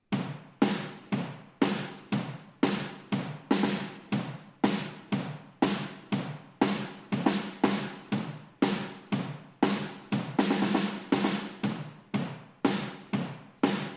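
Triggered drum room microphones with added reverb: many sharp, evenly spaced drum hits, each followed by a decaying reverberant tail, with a brief busier stretch of quicker hits partway through.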